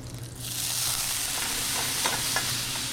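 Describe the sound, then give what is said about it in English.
Butter sizzles in a hot pan as spätzle fry, a steady, faint crackling hiss with a few small pops and no voices. “So now it's into a hot buttered pan for our spätzle. You hear the butter hitting the pan, nice and hot.”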